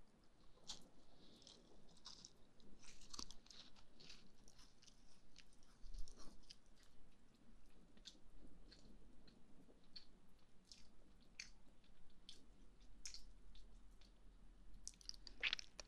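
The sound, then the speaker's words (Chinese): Crunchy chewing of crispy almond milk shortbread: many small crisp bites and moist, squishy mouth sounds in a soft, uneven rhythm, with no talking. “这样，你一口一口的吃，是不是感觉到更好吃了？酥酥的杏仁奶酥，”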